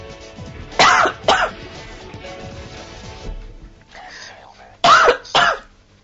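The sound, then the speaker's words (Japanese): Harsh coughing fit after choking, four loud rough coughs in two pairs with a pause of a few seconds between them, softer breathing noise in the gaps. “むせてしまった。”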